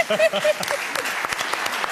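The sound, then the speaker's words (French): Applause from an audience at a quiz show: a voice speaks briefly at the start, then many hands clap in a steady, dense patter that carries to the end. “Vous pouvez l'applaudir.”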